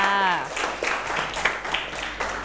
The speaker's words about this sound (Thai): การช่วยเหลือซึ่งกันและกันและไม่ทอดทิ้งกันปรบมือให้เพื่อนค่ะ